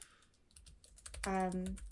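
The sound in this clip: Quick keyboard typing as a message is written: a brisk run of soft, uneven key clicks with no talk.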